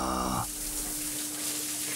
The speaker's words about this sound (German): Oh, Rani macht Pischi, guck mal.